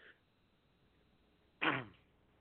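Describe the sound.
A single loud, abrupt sneeze bursts out after a stretch of near silence, short and breathy with a quick fade.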